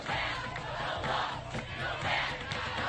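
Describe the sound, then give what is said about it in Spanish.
A protest march in Washington, moving from the White House to the Capitol, produces a steady, moderately loud roar of many voices shouting and chanting against a Muslim entry ban and a border wall. “Este es el sonido de la manifestación en Washington, que ha ido desde la Casa Blanca hasta el Capitolio.”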